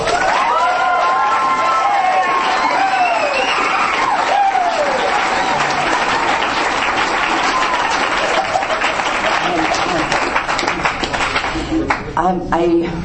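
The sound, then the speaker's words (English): Audience applause rewarding people who worked hard all year to put an event together: dense, sustained clapping mixed with crowd cheering through the whole stretch, thinning out slightly near the end. “A lot of people in the audience, too, have worked very hard all year to put this together. And I think they deserve a real big hand.”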